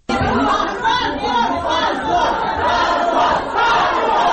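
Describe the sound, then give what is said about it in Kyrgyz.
Uproar from people gathered in a courtroom during the reading of a court decision: a dense, loud crowd of overlapping voices shouting and chattering without a pause. “Соттор коллегиясынын чечими залдагы чогулгандардын ызы-чуусу менен коштолгондуктан судья Ирина Воронцова кесиптешине чечимди гана окууну табыштады.”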